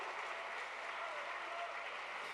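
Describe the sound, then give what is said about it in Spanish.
Church audience applauding, a faint, even wash of clapping that stays steady from start to finish. “¿Cuánto le damos un aplauso a ese Dios que ha quitado el temor a la muerte?”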